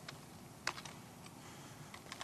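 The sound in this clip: Typing on a computer keyboard produces faint, irregular key clicks, with a few sharper taps standing out from the soft, scattered tapping against a quiet background.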